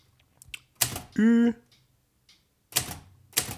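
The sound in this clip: A typewriter that lacks capital umlauts types over a word to cross it out with x's, giving a few sharp, separate key clacks with quiet gaps between them and a brief voiced sound among them.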